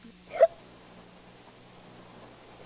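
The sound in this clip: One short hiccup from a tipsy woman sitting on a swing after drinking wine, sharp and brief near the start, followed by a faint, steady low hum.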